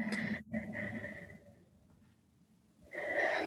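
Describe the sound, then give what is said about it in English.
A person takes a deep breath: a soft, airy rush that thins out into quiet, then a louder breathy surge near the end, with no talking. “I love that deep breath.”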